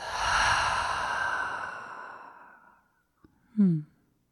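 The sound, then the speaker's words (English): A deep breath exhaled through an open mouth during a guided breathing exercise, a long breathy rush that slowly fades over about three seconds, followed by a tiny click and a short low voiced sound. “we take the deepest breath of the day so far. Inhale, fill up. Open the mouth. Exhale it out.”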